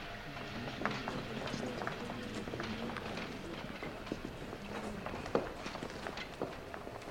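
Footsteps of a group marching in formation toward a town: many soft, overlapping steps and scuffs, faint and continuous throughout.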